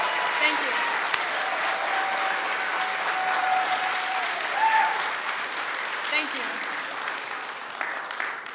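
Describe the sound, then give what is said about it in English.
A church audience applauds in a standing ovation: dense, steady clapping that fills the whole stretch at an even loudness, with a few slightly stronger swells and faint voices mixed in. “So won't you give a standing ovation to my girl, Riley Fultz!”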